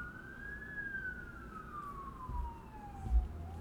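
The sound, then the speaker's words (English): An ambulance siren passing outside: one faint, steady wailing tone that climbs a little, then slides slowly lower, over a low background rumble. “Well, there's lots of ambulances around.”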